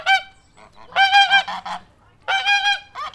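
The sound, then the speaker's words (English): A goose honks in loud, nasal calls that come in clusters of several quick honks with brief gaps between them, and no other sound. “Acting as a guardian, goose is instrumental for warning of danger.”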